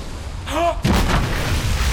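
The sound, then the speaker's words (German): A brief whistling tone is cut off by a heavy artillery boom as shots are fired at a ship at sea. The loud, rumbling blast sustains to the end. “Wie? Die schießen auf uns!”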